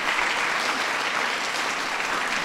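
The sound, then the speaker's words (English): A crowd gives a round of applause for two young performers, one only eight years old, with loud, dense clapping that stays steady throughout. “Let's give those two a round of applause.”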